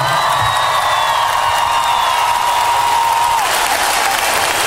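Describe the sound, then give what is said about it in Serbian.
Concert audience in an arena applauds with loud, dense, continuous clapping. Scattered cheers mix in, and the level stays strong and steady throughout. “Ako može, molim vas aplauz”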